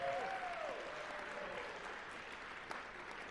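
Audience applause welcoming a pastor, a soft, steady wash of many hands clapping together throughout.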